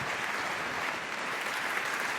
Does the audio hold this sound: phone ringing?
no